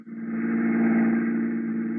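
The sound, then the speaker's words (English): A taxi drives through Rome at night, its engine giving a steady low hum with a buzzing harmonic tone. The drone holds constant and fairly loud, with no talk over it. “Late that night, after my last show at the Club Ulpia, I took a taxi home. As usual, Pietro, my favorite driver, had waited for me.”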